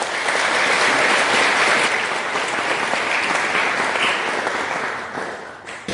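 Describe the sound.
An audience at the London School of Economics applauds steadily to welcome David Miliband, dense clapping that holds loud and then tapers toward the end.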